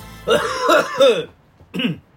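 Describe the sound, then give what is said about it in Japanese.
Someone with a badly sore throat coughs and clears their throat. Three rough, voiced bursts come in quick succession, followed by one more after a short pause. “こんな感じでね、喉死んでます完全に。編集で切ろうにも切れないぐらい咳込んじゃってるんで”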